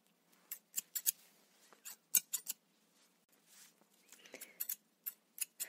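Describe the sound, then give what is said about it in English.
Sharp metallic snips of scissors trimming a beard before a shave, many quick cuts in irregular clusters with short pauses between them, fairly crisp against a quiet background. “Before shaving your beard, I'm gonna trim some beard for you. I use this.”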